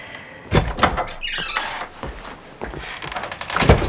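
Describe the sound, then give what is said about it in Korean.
A kitchen door being opened: a few sharp clunks and rattles, then a brief scraping movement and more knocks, fairly loud and with no talk. “아디나가 손짓하자 승조가 주방문을 열고 나간다.”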